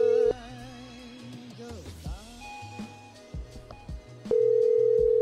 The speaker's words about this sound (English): I'm going to call them, see what they have to say.